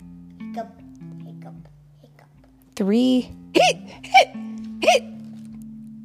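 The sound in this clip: A voice imitates a skeleton's hiccups with about four sharp, high vocal yelps. The first is longer and the rest are quick and clipped, all over a low, steady tone.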